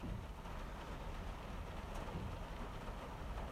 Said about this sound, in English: It's totally raining right now, and I hope that it's the audio on this isn't going to be total shit.